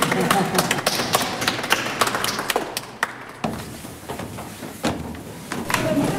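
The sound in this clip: A stairway gate leading up to a throne in a cathedral is shut and locked, giving a run of sharp knocks, taps and thuds that are irregular and fairly loud, with murmuring voices underneath.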